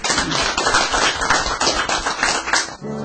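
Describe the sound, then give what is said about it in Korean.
Applause from a church audience after a hymn: dense, steady clapping from many hands that stays loud throughout, with no talk over it. “예, 우리 박수”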